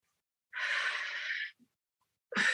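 Deep inhale taken at the bottom of a squat before lifting: a loud, airy breath lasting about a second, followed after a short pause by the start of another strong breath.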